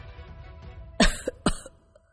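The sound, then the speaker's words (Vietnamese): An old man coughs while clutching his chest: a few short, rough coughs in quick succession, fairly faint and alone, trailing off into quieter throaty bursts. “Ông lão ôm ngực ho hụ hụ nói:”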